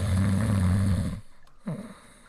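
A person imitates the snoring of a giant 20-foot golden alligator at rest: a long, loud, low rumbling snore, then a short pause and a softer breathy snort that trails off.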